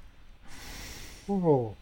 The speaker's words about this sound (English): I'm sorry, I don't mean to be yawning. It's been a long week.